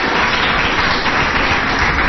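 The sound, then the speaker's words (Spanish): An audience applauds a female councillor with a continuous wash of dense clapping, loud and even throughout, with no single claps or voices standing out. “¿Y le damos un aplauso? ¿Os parece bien?”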